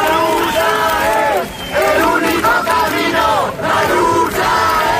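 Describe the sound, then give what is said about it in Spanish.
A large crowd in Sol, Madrid, shouts loudly at night, with massed voices rising in chant-like waves that dip briefly twice before surging again. “El sonido anoche en Sol cuando la gente se enteraba de la muerte de Mari Carmen”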